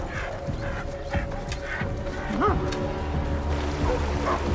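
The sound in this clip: Dogs barking and yelping as they stop with their owners on a low riverbank, a few sharp barks and whining cries over steady background noise.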